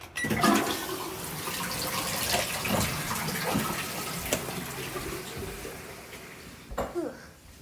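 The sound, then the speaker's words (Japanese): A toilet flushing, a broad, steady rush of water that holds at a moderate level for several seconds and then thins out toward the end. “では流します。”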